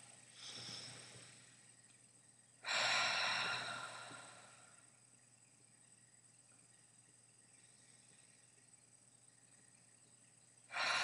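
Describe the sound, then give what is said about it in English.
Ujjayi breathing during a Manipura meditation: slow, breathy throat sounds with a soft hissing, ocean-like quality. A faint breath is followed by a louder, longer one that fades away, and another begins at the end. “3 Ujjayi breaths.”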